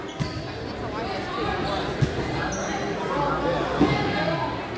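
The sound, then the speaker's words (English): A basketball is dribbled on a court during a game between the Cardinal Comets and Sigourney Savages, a few thudding bounces heard under a commentator's voice and crowd chatter. “Here comes Cardinal. Fifteen seconds left. They dribble it.”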